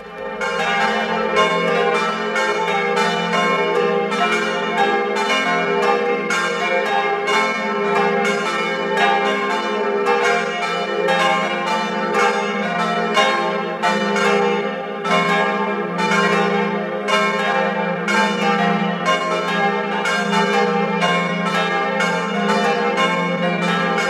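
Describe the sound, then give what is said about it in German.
Parish church bells in Baumkirchen, Tyrol, ring at noon in a full, continuous peal of several overlapping bells, loud and steady for the whole clip. “Es ist 12 Uhr. Sie hören die Glocken der Pfarrkirche zum heiligen Laurentius in Baumkirchen in Tirol.”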